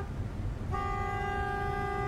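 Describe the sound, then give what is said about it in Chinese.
A car horn sounds as a single loud, sustained, steady tone, starting shortly after a stretch of low rumbling traffic noise and holding to the end. “一成按了两次喇叭，总算让江丽子朝这边看来”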